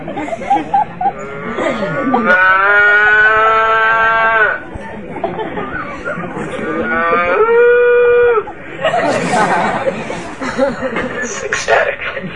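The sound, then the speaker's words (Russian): Cows moo in two long, loud, drawn-out calls with rich harmonic tones, separated by a few seconds of rustling background noise. “Когда коровы видели своих маленьких телят, они никогда не любили своих телят так, как сейчас. Они мычали от экстаза.”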